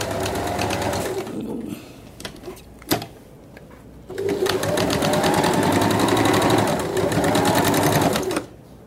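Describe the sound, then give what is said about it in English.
A sewing machine stitches fabric together into a circle, running in two fast, steady bursts: a short run, a pause with faint clicks, then a longer continuous run. “Okay, so I'll sew this together now to make a circle.”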